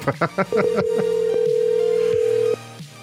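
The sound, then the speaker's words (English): Telephone tones on a call to a daughter's number. A quick run of short dialing beeps gives way to one steady, mid-pitched tone, held for about two seconds before it cuts off. “It's going to keep ringing because he's not going to block his daughter's”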